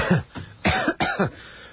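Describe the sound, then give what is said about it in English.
A person coughing repeatedly, with a few harsh, throaty bursts in close succession and short gaps between them. There is no talk. “Of course, I have to point out the fact that I'm still coughing.”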